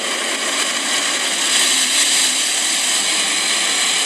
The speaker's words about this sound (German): Waschanlage, würde ich sagen. Autowaschanlage. Sehr gut.